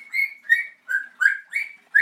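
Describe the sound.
A pet parrot calls six times in a steady rhythm. Each call is a bright, slightly buzzy whistle with strong harmonics, loud and alone, with short silences between calls.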